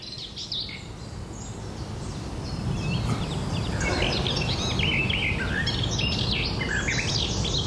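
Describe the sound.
Garden warbler song, a rapid, rambling stream of bright warbled phrases and chirps that runs continuously over a low, steady background hiss.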